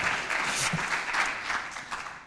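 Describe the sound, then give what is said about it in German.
Audience applause greeting participants at a live-streamed event: many hands clapping in a continuous, fairly dense patter that stays level and moderately loud throughout, with no voices on top. “wir würden euch gerne mal begrüßen, euch einen Applaus geben.”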